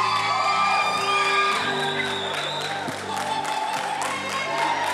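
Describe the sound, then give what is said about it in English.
An audience at a Pentecost Sunday church service cheering, whooping and shouting over sustained music, a loud continuous crowd sound with scattered high whoops. “Thank you for that, my brother. Some of them cheering weren't married now.”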